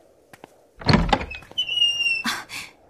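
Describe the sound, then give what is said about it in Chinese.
A door being opened: a low thump, then a thin, high squeak and a brief rattle, fairly loud and without talk. “我去开门。”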